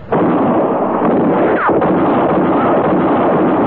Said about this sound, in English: You killed me! I'm shot! It was Katie Fulton's shot that missed Matty Silks and hit Court Thompson.